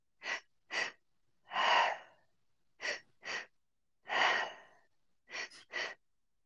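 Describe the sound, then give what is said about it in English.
Breathing exercise through an open mouth: two quick inhales, one into the low belly and one into the high chest, then a longer exhale. The pattern repeats in a steady rhythm, with no talking. “it's two inhales and one exhale. And the first inhale goes into your low belly, the second inhale into your high chest, and then we exhale. So it sounds like this.”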